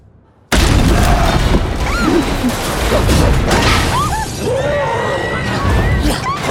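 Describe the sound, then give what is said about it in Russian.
A car is smashed by a giant creature in an action film scene, a sudden, very loud burst of crashing metal and shattering glass that holds as a dense roar for several seconds. “Рассеивается пыль, и освободившийся Халк крушит ближайшую машину.”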